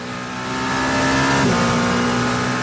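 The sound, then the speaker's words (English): Race car engine heard onboard during the 24-hour race at Le Mans, its 100th anniversary: a loud, steady, high-pitched engine drone that swells slightly, then holds, with no talking. “That's YouTube. It's Saturday. It's Le Mans, the 24th running, the 100th anniversary. And how fun is it that you can go to YouTube and get inside the cars with a live stream?”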